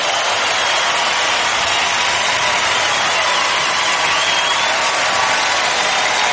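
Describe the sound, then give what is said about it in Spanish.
Loud, sustained applause from a crowd: dense, even clapping that fills the whole stretch without a break or a swell. “fuerte aplauso a tu rey.”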